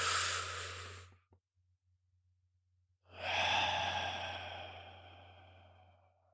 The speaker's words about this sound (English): So when I stop and I take that real deep breath,